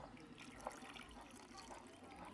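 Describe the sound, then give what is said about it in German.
Water poured into a cooking pot to cover potatoes for mashed potatoes, a faint, continuous trickle and splash that runs through the whole clip. “Jetzt bedecken wir das Ganze mit etwas Wasser. Ich wollte gerade sagen, da brauchen wir ein bisschen Wasser, oder? Kannst du gerade hier reingießen, dass es gerade so bedeckt ist.”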